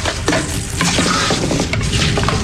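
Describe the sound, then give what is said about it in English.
Dishes being washed, heard as a loud, dense, continuous wash of noise with scattered light clinks and clatters running throughout. “Okay, I'll wash your dishes.”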